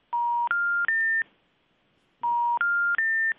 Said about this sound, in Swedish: Slår du rätt nummer? Nej, jag slår den i sal.